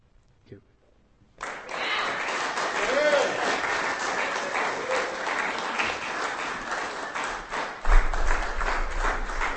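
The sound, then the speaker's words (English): Audience applause follows a poetry reading: steady clapping starts abruptly after a brief quiet moment and continues without a break to the end, with a louder surge near the close. “That is Malcolm Kenyon, ladies and gentlemen. Give him a hand.”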